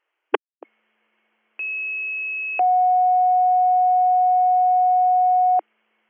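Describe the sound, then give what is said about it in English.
Emergency EMS pager alert tones: two sharp clicks, then a high steady tone for about a second, followed by a lower, louder tone held for about three seconds, with no voices. “Little Meadows EMS, second page, Bradford”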